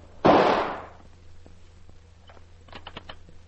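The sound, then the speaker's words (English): A single gunshot, fired by a woman at her husband in their home, bursts out loud and sharp near the start and decays over about half a second, followed by a few faint, scattered clicks. “You shot me. Yes, and I'm not through shooting.”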